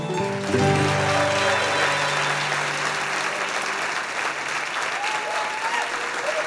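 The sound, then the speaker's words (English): Warm applause from an eTown audience welcoming the host on stage, dense and steady clapping with a sustained musical tone ringing beneath the first few seconds. “Right now, please join me, if you would, in welcoming our host, Nick Forster.”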